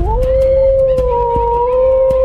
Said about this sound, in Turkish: Kurt mu? Aman Allah'ım, ben çok korkuyorum